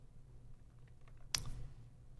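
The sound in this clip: A single sharp computer mouse click, made while holding the alt key, stands out once against a faint, steady low hum.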